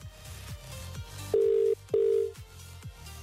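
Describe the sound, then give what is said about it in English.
A telephone call being placed: two long, steady electronic tones sound one after another over a rhythmic, pulsing background beat. Moderately loud, with no talk. “Okay, I'm placing the call. One seat. Are we ready? This person decides. Oh, I'm nervous. Oh, mate, this is pressure. Here we go. Dial the number.”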